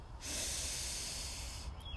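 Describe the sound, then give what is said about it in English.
Deep inhalation during a guided breathing and chanting exercise: a steady, airy hiss of drawn-in breath that swells quickly and holds for nearly two seconds, with no voice. “So breathe in and yam as long as your breath allows. Breathe in.”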